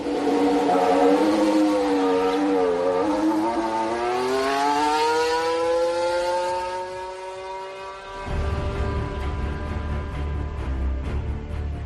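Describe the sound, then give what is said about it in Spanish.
A 2018 Mercedes Formula 1 car driven by Valtteri Bottas: its engine whine climbs steadily in pitch as it accelerates, then gives way to a lower, rougher roar in the final seconds. “hoy ha vuelto a rodar un Fórmula 1 en pista. Regreso a la normalidad, Valtteri Bottas en un Mercedes de 2018.”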